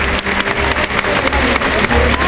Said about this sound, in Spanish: Emilio de Justo vestido de azul marino y oro. Y ahí la agarra y la muestra al público, que le aplaude con fervor.